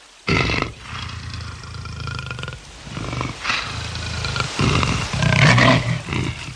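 A lion roars in deep, loud, rumbling bursts that come one after another, with throaty growling between the louder roars.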